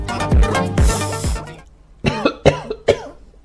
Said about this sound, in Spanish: ocurre que no puedo hablar, porque toso y estornudo todo el tiempo por ese arbolito.